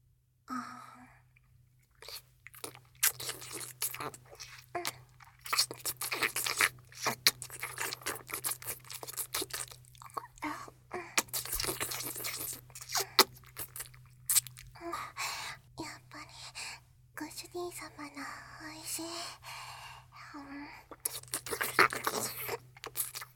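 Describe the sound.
Someone eating, with many crunching bites and chewing sounds in irregular bursts over a long stretch, fairly quiet, above a steady low hum.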